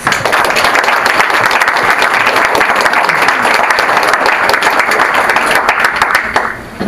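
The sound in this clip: Sustained audience applause welcoming the speakers at an evening talk series: a dense, steady wash of many clapping hands that holds for several seconds before tapering off at the end.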